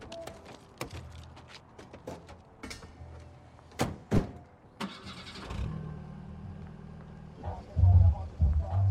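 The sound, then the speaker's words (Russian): A car engine turns over and settles into a low, steady rumble as someone gets into the car, after a few sharp thumps, with voices faintly underneath. “Сын уходит и садится в машину.”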